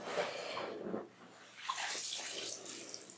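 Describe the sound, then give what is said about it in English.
Water in a bath trickles and splashes as it runs out of a held container in droplets: two quiet bursts of running water separated by a short lull. “If I fill it with water, I just hold it above me. The water just runs out in droplets.”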